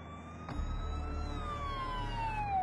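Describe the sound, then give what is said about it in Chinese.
A police car siren wails during a chase. Its loud, steady tone slides slowly downward in pitch partway through, over a continuous low engine rumble. “吴明正驾驶着警车追赶而来”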